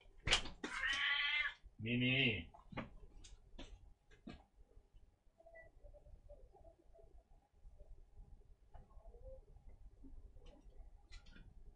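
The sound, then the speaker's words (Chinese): A cat meowing: two loud, drawn-out meows close together near the start, followed by a long stretch of faint, scattered small sounds. “等先，搞搞只猫先。”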